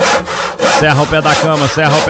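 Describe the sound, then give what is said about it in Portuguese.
A hand saw cuts through a wooden bed leg in loud, steady back-and-forth strokes that rasp over and over with short pauses between them. No one speaks. “Dá um jeito de levantar que eu vou serrar o pé da cama, hein?”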